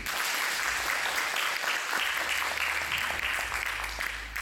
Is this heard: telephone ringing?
no